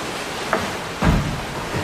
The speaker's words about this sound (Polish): przyjechać tutaj, przyjechać na Tanew, na szumy i odpocząć.